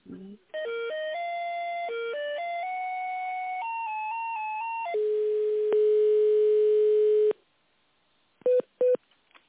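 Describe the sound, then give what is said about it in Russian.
Electronic telephone line tones play while a call is transferred to a company's tender specialist: a stepped melody of tones, then a long steady tone, a pause, and two short beeps. “Кто вам нужен? С кем я соединю? Тендерный специалист. Хорошо, соединю.”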